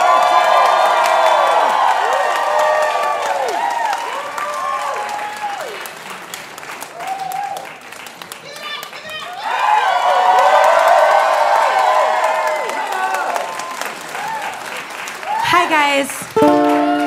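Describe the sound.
Loud applause and cheering from a live storytelling audience in Brooklyn as a performer returns to the stage: steady clapping carries high whoops and shouts throughout, dips briefly midway, then swells again before closing with a few shrill cheers.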